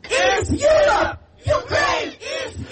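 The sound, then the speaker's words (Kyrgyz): Pro-Ukraine protesters shouting together at a street rally during a summit, demanding faster EU membership for Ukraine: loud chanted crowd shouts in repeated bursts separated by short pauses. “Саммит учурунда Украинаны колдогон адамдар шаардын көчөлөрүндө митингге чыгып, Украинаны Европа биримдигине кабыл алуу жараянын тездетип чечим кабыл алууну талап кылып кыйкырып”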